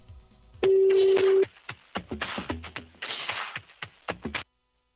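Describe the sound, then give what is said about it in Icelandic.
A telephone number is dialed: a steady dial tone hums for under a second, then a rapid, uneven run of many short key presses and clicks follows before the sound cuts off into silence. “ég ætla bara að ringja í númeri sem að hann svarar alltaf”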